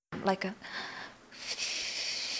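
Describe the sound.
Someone demonstrates a haenyeo diver's long breath blown out between the lips: a short voiced sound, then a steady, breathy hiss that lasts about two seconds.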